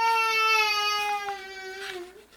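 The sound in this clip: A baby cries in one long, sustained wail, loud and steady in pitch before dipping slightly near the end.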